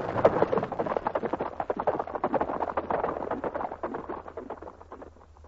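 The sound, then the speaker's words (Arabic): Hoofbeats of a horse galloping away: many quick hoof strikes in a fast, steady rhythm that keep going and slowly grow fainter toward the end. “وألهب الجواد فصار، ثم انطلق كالإعصار، وما زال ينهب الأرض ويسرع في الركض”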